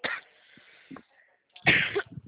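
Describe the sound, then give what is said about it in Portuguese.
Coughing from a person who has just choked: a short rough cough, a small catch, a pause, then a stronger, harsher burst of coughing that trails off. “Ai, desculpa, eu engasguei.”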